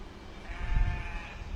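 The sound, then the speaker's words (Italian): Sheep bleating from Formello near Rome: a faint, drawn-out, wavering bleat that swells in the middle and then fades, over a low background rumble. “Poi, se fai attenzione, senti bene, si sentono le pecore da Formello.”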